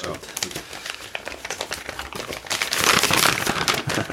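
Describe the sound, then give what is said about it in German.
Wrapping crinkles and crackles as something is unpacked, a continuous run of many small, irregular rustles and snaps that grows louder in the second half. “wird hier ausgepackt”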